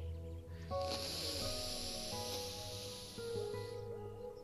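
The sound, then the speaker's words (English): A slow, steady exhale during a guided breathing exercise makes a soft, airy hiss that runs through most of the stretch. Quiet sustained musical tones play underneath the breath. “I'll just do it in my mind, but you'll hear me breathe.”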